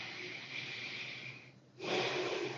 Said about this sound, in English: So take a deep breath.